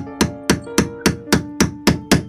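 Hammer strikes drive an iron nail into a wobbly bed leg: eight evenly spaced, sharp knocks with a metallic ring, steady and fairly loud.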